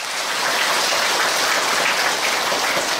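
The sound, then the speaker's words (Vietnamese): Audience applause at a Buddhist dharma talk: loud, dense, rain-like clapping that stays steady and continuous throughout, with no voices above it. “Xin cho một tràng pháo tay.”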